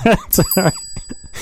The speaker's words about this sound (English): Thank you for the 3-year-old tricycle bell. That's a great way to introduce the stuff.